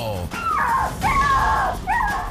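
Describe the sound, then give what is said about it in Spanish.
A small dog left outside an elevator whimpers in distress, giving three drawn-out, high-pitched whines that bend and slide in pitch, with short yips between them. “el perrito que quedó fuera del elevador y su vida corre inminente peligro”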